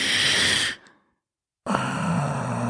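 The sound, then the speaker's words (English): A voice imitates heavy drunk breathing, with a loud breathy exhale, a brief silence, then another heavy breath carrying a groaning voiced edge. “it's just like that drunk breathing”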